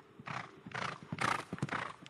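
A horse out on a morning training run, its movement heard as faint, rhythmic pulses about half a second apart that recur steadily, matching the beat of hooves and breathing at a brisk gait.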